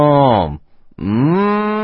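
Cattle mooing, a cow giving two long, loud, low calls separated by a brief pause, the second call somewhat longer than the first, with no voices.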